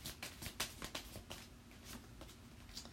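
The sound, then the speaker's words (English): A tarot card being pulled from the deck during a reading: a quiet run of soft, irregular clicks and papery flicks, with no talk. “Spirit wants me to pull one more gateway card.”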